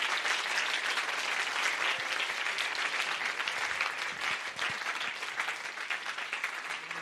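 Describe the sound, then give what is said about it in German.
Steady audience applause from a church audience after a sermon: dense, continuous clapping that holds at an even, fairly loud level throughout. “Gebt ihm nochmal einen Applaus.”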